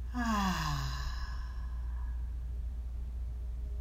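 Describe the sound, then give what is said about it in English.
A deep breath released as a voiced, falling sigh during a guided breathing exercise. It is loud at the start and fades within about a second, over a steady low hum. “We take a breath in, breathe in, and out.”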